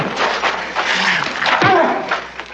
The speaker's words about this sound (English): That's a dog. It's one of my favorite things in the world.